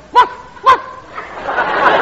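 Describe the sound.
Two sharp, short barks from a police dog, evenly spaced about half a second apart, followed by a rising wash of mixed noise.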